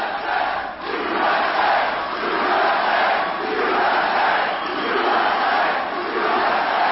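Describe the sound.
A protesting crowd shouts at a comedian, a dense, steady roar of many voices yelling together that swells and dips slightly without a break.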